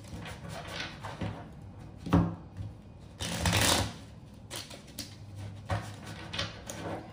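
Tarot cards shuffle in a series of papery riffles and slides, with one longer, louder riffle near the middle among several shorter, softer bursts.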